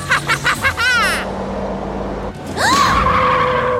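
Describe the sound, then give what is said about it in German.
Tires squeal as a car brakes hard and skids, a loud high screech that rises and then holds. It follows a short run of other bouncing, sweeping sound effects and a stretch of low rumble. “Erschrocken trat Tilly täglich auf die Bremse.”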